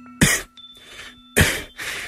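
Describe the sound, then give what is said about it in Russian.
A man coughs in a prolonged fit: two harsh, loud bursts, each followed by a softer rasping tail, with no talk. “закашлялся и кашлял долго”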